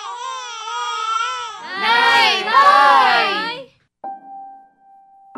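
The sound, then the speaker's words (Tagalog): A child cries loudly in long, wavering wails that swell into harsher, more strained sobbing before breaking off. “umiyak na naman”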